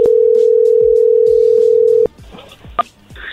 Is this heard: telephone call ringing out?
yes

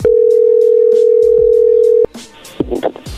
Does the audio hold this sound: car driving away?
no

